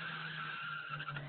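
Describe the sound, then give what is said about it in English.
Faint tire squeal from a car racing around outside, a sustained skidding screech that holds for about a second and a half. “Someone's racing around. Oh, is that what that noise is? It's crazy.”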